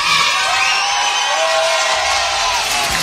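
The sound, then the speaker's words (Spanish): An audience on its feet cheering, a continuous loud roar of clapping and shouting with high whoops and whistles riding on top, steady from start to finish. “El público está de pie.”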